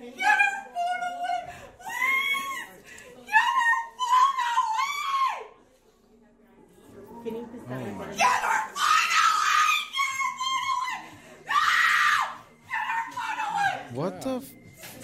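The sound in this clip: A woman screaming and wailing in a full temper tantrum: long, shrill, high-pitched cries in loud bursts mixed with shouted words, with a quieter gap partway through.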